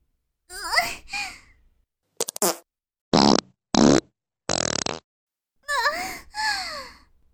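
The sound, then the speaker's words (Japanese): Fart sounds are poured into a goldfish bowl: a short crackle, then three long, loud, buzzing blats in a row. Brief childlike vocal sounds come before and after them. “水の代わりにたっぷりおならを注いじゃいました。”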